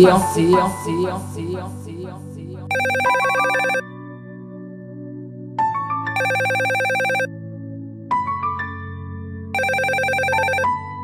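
A telephone rings over a background music track, three separate bursts of bright, trilling ring spaced a few seconds apart, as someone calls a girlfriend.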